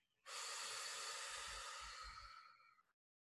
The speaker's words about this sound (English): Just take a deep breath. Inhale and exhale.